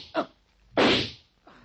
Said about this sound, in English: Yeah, you were firing at a bunch of bedding rolled up and put under the covers